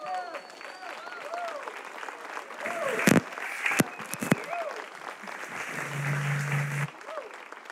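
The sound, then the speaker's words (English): A church audience applauds, standing to welcome a guest speaker. A broad, sustained wash of clapping builds and holds, with voices and a few sharp louder claps, and a low steady tone appears briefly near the end. “I'm going to ask you to stand up, put your hands together, and welcome Bob Harrison. Can you do that right now?”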